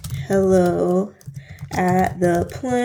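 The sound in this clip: Computer keyboard typing as an email address is entered, a run of quick, light clicks under a person talking.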